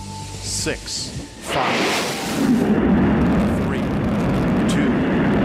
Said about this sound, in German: Das Space Shuttle hebt ab.